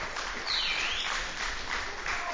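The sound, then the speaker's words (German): Audience applause for a chairman at a prize presentation, a thick, unbroken clatter of many hands clapping at steady loudness throughout. “Ein großer Applaus für den Vorsitzenden Wolfgang Lorenz.”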